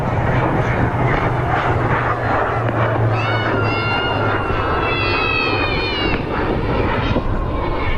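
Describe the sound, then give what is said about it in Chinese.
Loud, steady engine roar of a KJ-500 airborne early warning aircraft, built on a Y-9 special-mission platform, taxiing onto the runway before takeoff, with a high whine over a dense drone and a crowd's voices faintly mixed in. “正在滑上跑道的，马上就要起飞的是我们空军的预警指挥机空警五百，空军五百。”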